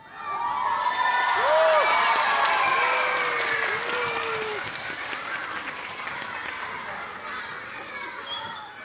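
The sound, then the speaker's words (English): Children cheering excitedly, a dense crowd of young voices shouting and whooping over clapping-like noise, loud and sustained throughout and easing only slightly toward the end. “This made the children very happy, and some of them cheered excitedly.”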